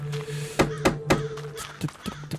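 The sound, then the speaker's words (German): Door opening and closing in a video game: a few dull, solid thunks in quick succession, followed by softer knocks, over a steady low hum. “Die Tür klingt anders.”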